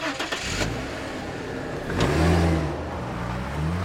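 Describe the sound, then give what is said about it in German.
A car engine drives on a road trip into Lower Franconia, Bavaria. The steady mid-pitched hum swells into a louder acceleration midway through, then settles, with a few brief clicks at the start and no voices. “Ich fahre nach Bayern, kurz hinter der hessischen Landesgrenze nach Unterfranken und treffe Alois Klüpfel”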